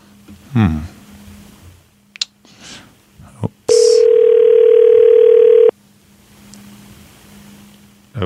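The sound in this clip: An electronic telephone ring tone sounds as a call is placed to a child's mother: one steady, loud tone lasting about two seconds, after a few faint clicks and thumps and a brief hiss, with quiet line noise after it.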